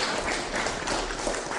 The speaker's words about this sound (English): You may applause. Yes, come on.